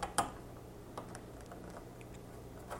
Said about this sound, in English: I haven't lost the little screws, but I'm having a really hard time getting them to go in. I'll try one more time here.